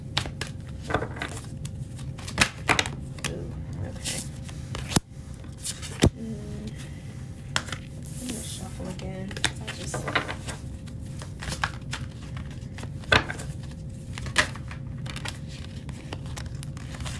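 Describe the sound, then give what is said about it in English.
Tarot cards being shuffled and pulled: many crisp snaps, flicks and papery rustles scattered over a steady low hum. “I'm gonna pull. Somebody said, let me pull a few more cards here. Let's pull a few more cards.”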